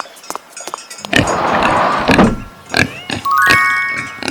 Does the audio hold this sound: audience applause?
no